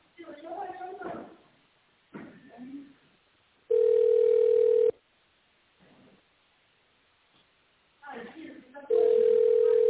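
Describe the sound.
Steady, low-pitched telephone dial tone while a call is being placed, sounding in two separate bursts of about a second each, with people talking before and between them.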